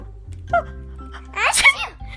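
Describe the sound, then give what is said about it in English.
A voice imitates a blossom fairy with hay fever sneezing hard: a short catching breath, then one loud, forceful, breathy sneeze. “She sneezed so hard she blew all the petals off her beautiful rose.”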